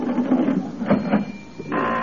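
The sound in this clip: A mechanical cash register rings up a sale with a few clattering, whirring mechanical bursts, fairly loud, with no talk over it.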